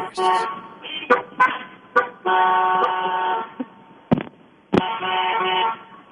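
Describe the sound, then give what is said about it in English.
Car horns honking over and over in a rapid run of blasts. Some are short toots and others are held for more than a second, with loud, bright overlapping tones and only brief gaps between them. “I counted a clear 23 honks.”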